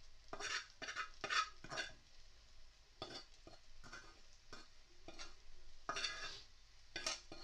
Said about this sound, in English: I'm gonna mix it up a bit. I'm gonna add the tuna in